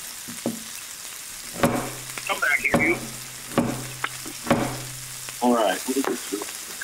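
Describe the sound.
Onion fries and splatters in a small personal electric frying pan with no temperature control, a steady sizzle broken by several sharp knocks of stirring.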